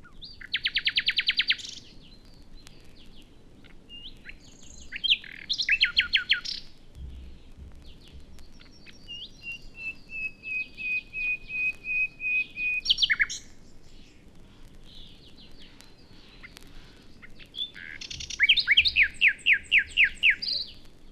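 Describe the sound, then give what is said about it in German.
A common nightingale sings alone in several separated phrases of rapid trills, clicks and bright whistles, one phrase a long series of repeated piping notes that swell in loudness. “Wir hören nun den Schlag der Nachtigall.”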